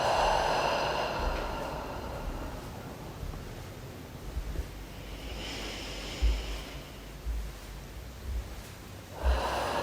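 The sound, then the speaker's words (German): Slow, deep breaths in and out during a guided relaxation: soft, breathy rushes of air at the start, in the middle and at the end, separated by quiet stretches with faint low thumps. “Nochmal tief einatmen und loslassen.”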